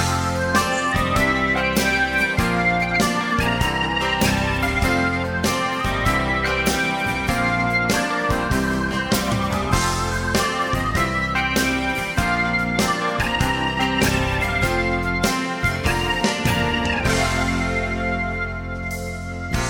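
A Swedish pop song about a postman's job plays as a full band arrangement with a steady, driving beat and bright harmonic layers, continuing loudly throughout.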